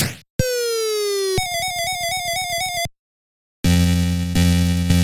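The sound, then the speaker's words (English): Electronic bleeps from a Taito Elevator Action arcade machine right after a quarter drops in: a long, slowly falling tone, then a rapid warbling trill, a brief silence, and a loud, buzzy sustained chord. “I'm going to put my hard-earned quarter in. The Taito sound that I also heard when they play Jungle Hunt or Jungle King.”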